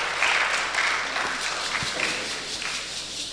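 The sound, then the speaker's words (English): An audience claps during a church morning service after a prayer. The applause is fairly soft and even, with scattered sharper hand strikes in the dense patter. “Put your hands together, Father Lord.”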